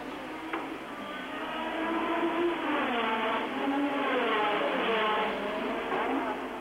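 Formula One race cars from 1985 running on the Monaco street circuit near the tunnel, a continuous high-pitched engine whine whose pitch wavers as the cars rev, holding a steady, fairly loud level throughout.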